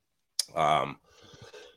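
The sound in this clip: Throat clearing from a man with a frog in his throat: one sharp onset, then a short voiced, rasping hum and a softer breathy scrape that trails off.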